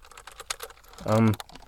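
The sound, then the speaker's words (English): A USB computer keyboard is handled, producing a few soft, light clicks and taps, followed by a brief voiced sound near the end. “there's a computer keyboard in here and I've never seen it before. I don't know why. And I don't know what. It's a USB keyboard too.”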